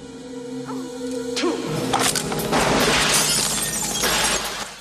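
Glass shatters as a body falls through it: a steady low drone breaks into a sudden loud crash, followed by sustained bright crackling and tinkling of breaking glass that slowly thins out.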